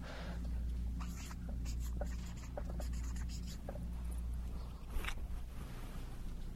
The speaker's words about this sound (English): Let's write that down, just in case anyone gets the wrong idea here.